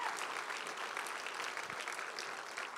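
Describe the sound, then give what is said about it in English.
Congregation applauding its pastors during a church service: a steady, even wash of many hands clapping, fairly quiet, with no break and no clear voices. “Can you guys put your hands together for your pastors?”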